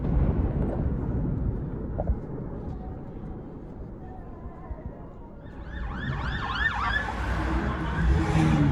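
An ambulance siren wails in repeated rising and falling sweeps, coming in after about five seconds over a steady low rumble of traffic and growing louder toward the end.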